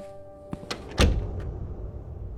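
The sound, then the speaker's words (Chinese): A door closing in a house, with a few faint clicks from the latch followed by one solid thump, then the room settles into quiet. “门关上，屋子里很安静”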